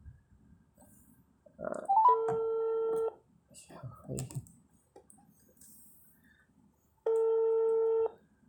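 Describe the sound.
An outgoing phone call rings on loudspeaker: two steady one-second ringback tones separated by a long pause, a brief chirp just before the first, and faint murmur and handling noise in between.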